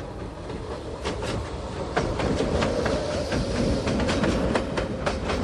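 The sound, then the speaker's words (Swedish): A train races past on the railway near a crossing where cars must stop: a loud, continuous rushing rumble with rhythmic clickety-clack wheel clicks repeating throughout. “Och titta, där kommer ju tåget. Ja. Och vad fort det kör.”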